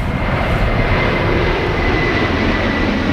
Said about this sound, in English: Yes, that is a plane, of course.